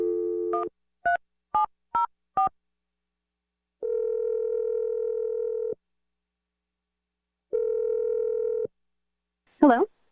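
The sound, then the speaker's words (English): A telephone number being dialed: a short dial tone, then several quick keypad beeps, followed by two long, steady ringing tones separated by silence, and a brief voice at the very end. “I'm going to dial the number.”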